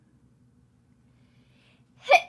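A single sharp sneeze bursts out near the end, loud and brief, following a long quiet stretch with only a faint low hum underneath.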